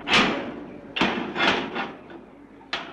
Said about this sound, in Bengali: হঠাৎ দরজাটা খুলে গেল